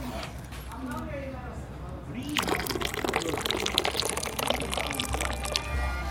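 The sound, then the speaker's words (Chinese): Water is poured into a pot of tea. After a quiet start, a steady splashing pour begins partway through and continues to the end while people talk. “这个好，你这个到这个时候你去加水了。”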